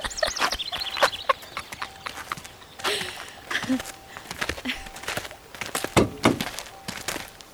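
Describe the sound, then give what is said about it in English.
A car trunk pops open with a few dull mechanical thunks and sharp clicks, scattered among other brief knocks and faint voices. “Will you pop the trunk, babe?”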